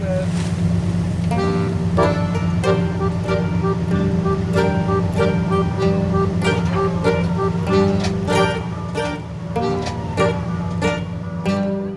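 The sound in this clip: Engine of a powerful coast guard patrol boat off Lampedusa heading out to sea, a steady, low droning rumble that holds evenly throughout.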